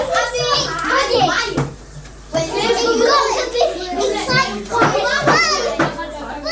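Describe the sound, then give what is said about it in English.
Children talk and play at school, with many young voices overlapping in continuous, lively chatter. Shouts and calls rise and fall throughout, with brief bumps and knocks mixed in. “Reese for recording those noises from the school that we heard in the report”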